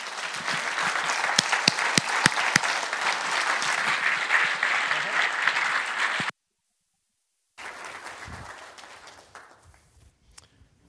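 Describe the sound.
An audience at a church service applauds to welcome two speakers, a dense, sustained clapping that stops abruptly into silence, then resumes more softly and fades away.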